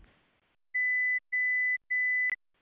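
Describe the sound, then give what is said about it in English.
Three identical electronic beeps from a telephone hearing test, steady mid-high tones evenly spaced like a truck's reversing alarm, followed by a short click. “The beeping sounds are a bit like the warning sound when a truck is reversing. They sound like this.”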